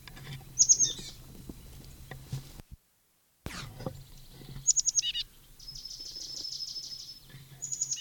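Bird calls: short high chirps and a longer thin trill, faint over a low background hum, with a brief drop to silence partway through.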